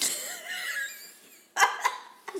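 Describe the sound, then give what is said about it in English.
A woman choking on wine: a strained, wheezy breath gives way to three sharp coughs, the first loudest and the last after a short pause. “she's choking on this fucking wine”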